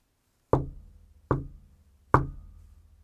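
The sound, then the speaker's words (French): Three knocks on a door, evenly spaced. Each is a sharp, hollow thud with a short ringing decay, heard alone with no voices. “n'ouvrez à personne, à moins que vous n'entendiez frapper 3 coups ainsi.”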